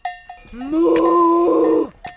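A person imitates a cow's moo while hiking among grazing cows on an alpine pasture: one drawn-out, low, voiced moo that rises and then holds for about a second, with brief bell clinks before and after.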